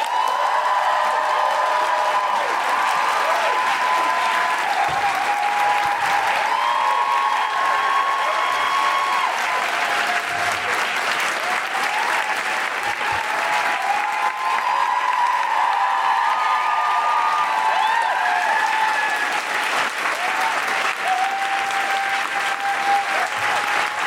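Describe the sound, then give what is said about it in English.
Sustained audience applause at a live feminist stage show, a thick, even roar of clapping that runs for over twenty seconds, with a few voices rising through it. “Please welcome to the stage and make wonderful, woohooing, groundling, extraordinary, guilty feminist noises.”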